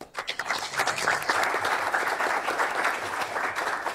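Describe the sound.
Applause from an audience welcoming a speaker at a talk, starting with a few separate claps that quickly build into dense, steady clapping from many hands.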